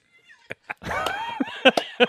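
A cat in a video cries out after running across a flame and catching fire. A brief harmonic, meow-like wail sits among a few sharp clicks and thumps.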